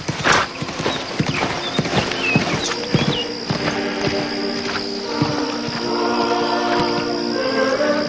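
Horse hooves clip-clopping as a rider travels through countryside toward a small town, many steady, evenly spaced hoofbeats continuing throughout with no talking.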